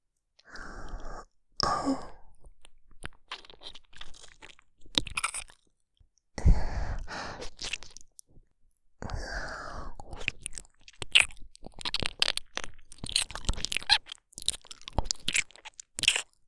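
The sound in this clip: Crunchy biting and chewing in a role-play of nibbling an ear: many close, crisp crunches and wet chewing sounds in irregular bursts, separated by short pauses and soft sighs or breaths.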